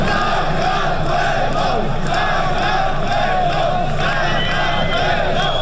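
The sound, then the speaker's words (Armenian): Protesters outside parliament chant "Georgia" in unison. The loud crowd repeats the word in a steady, rhythmic cadence that runs through the whole clip. “Վրաստան, Վրաստան, բացականչում էին ցուցարարները երեկ երեկոյան”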